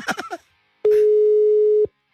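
A telephone ringback tone plays while a caller waits for an answer: a single steady, mid-pitched tone about one second long that starts and stops abruptly.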